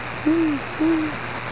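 Little owl hooting: two soft, steady whistled hoots with a brief pause between them, each trailing off slightly at the end over a faint background hum.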